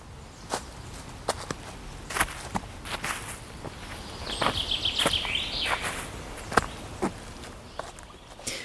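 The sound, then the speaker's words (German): Footsteps walking through a forest: a steady series of crisp, crunching steps, with a short run of high bird chirps partway through. “Und hier spazieren wir noch einmal durch den Wald der Gegenwart”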